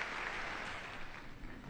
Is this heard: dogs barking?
no